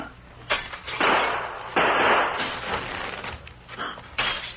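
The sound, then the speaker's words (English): Window glass being smashed: a few harsh, noisy crashing bursts follow one another, loud and dense, with a rough rumble between them and no talk. “As soon as he fires, you raise the shade, and I'll smash this window.”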